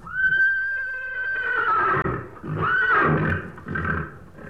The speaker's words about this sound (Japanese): あ、この声はなんだ？聞いたことのない変な声だにゃ。 馬なのだ。